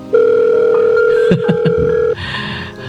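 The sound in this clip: A telephone rings with an electronic tone. The loud, steady tone holds for about two seconds, a few sharp clicks cut into the middle of it, and a brief stretch of hissy noise follows.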